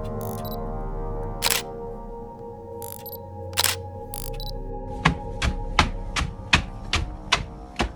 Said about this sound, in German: Was ist das denn? Davon muss ich unbedingt ein Foto machen.